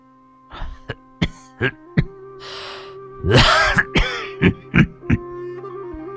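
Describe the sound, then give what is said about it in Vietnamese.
An old man coughing hoarsely in a stone cave: a long run of many short, rasping coughs and throat-clearing bursts with a rougher, wheezy fit midway, over a faint steady tone. “Lão Sâm ho khổ khổ”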